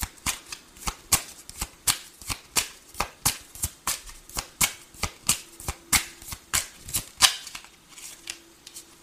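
Tarot cards being shuffled: many crisp, evenly spaced flicks and snaps of card stock in a steady, repeating rhythm that keeps going throughout.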